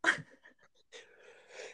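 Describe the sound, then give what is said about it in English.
A sneeze erupts mid-show: one sharp, loud burst at the very start, then softer breathy sounds and faint noises trailing off, with a quieter rustle of air near the end. “Excuse me, I have to sneeze. Pardon me. Here we go. Mid-show sneeze.”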